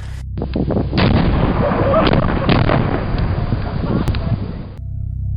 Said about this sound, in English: So in response, they dropped giant bombs on them.